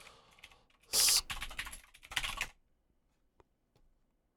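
Someone types a website address on a computer keyboard in a dense run of clicking keystrokes lasting about a second and a half. A few faint, isolated key taps follow before the typing stops.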